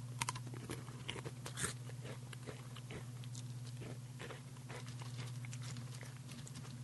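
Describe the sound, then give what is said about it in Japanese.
Salad-flavour Pretz pretzel sticks being crunched and chewed, with many small crisp bites and snaps at an uneven pace, faint over a steady low hum. “ここに、えー、プリッツサラダ味があるのでですね、えー、ちょっとそれを食べながらちょっとトークしようかなと、えー、思います。”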